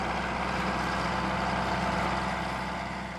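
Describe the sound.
A bulldozer with a basic, rudimentary cab runs with a steady, heavy engine drone, a loud constant rumble with no change in pitch and no talk.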